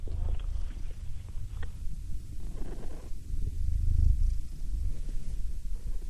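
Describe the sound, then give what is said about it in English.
A cat purring, a soft low rumbling that runs steadily through the whole stretch with slight pulsing, faint and alone without any talk. “That was my cat.”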